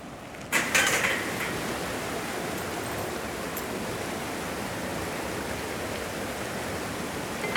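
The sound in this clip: Water flowing through an irrigation intake regulated with a key, a steady, soft rushing hiss that holds evenly, with a short clunk near the start.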